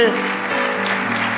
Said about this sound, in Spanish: ese aplauso es la expresión de tu agradecimiento, dale un aplauso fuerte.